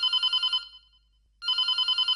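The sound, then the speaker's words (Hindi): A telephone bell rings in two bursts of rapid, bright trilling separated by a short silent pause, crisp and clear with nothing else heard. “Phone आ रहा है।”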